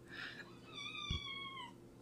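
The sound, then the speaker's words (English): A young female cat still in its kitten phase gives one drawn-out meow, a clear, thin tone lasting about a second that sinks slightly in pitch, faint and alone. “this cat's trying to like single leg me. She just latches on.”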